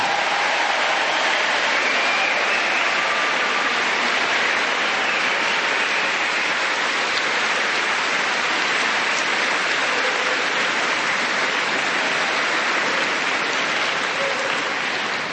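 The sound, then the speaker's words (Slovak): An audience claps steadily for about fifteen seconds to thank Radio Lumen for its support. The applause is dense and even, with no talk. “tak pre televíznych divákov zakývajme, že ich pozdravujeme a Lumeniákom zatlieskajme za, po, za podporu.”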